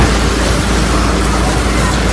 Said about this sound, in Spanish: Es el sonido de un fuego que puede tener un origen intencionado.